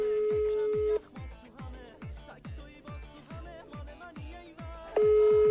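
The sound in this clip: Ringback tone of an outgoing phone call: a steady tone for about a second breaks off, then a thumping rhythmic beat runs underneath before the same steady tone returns near the end.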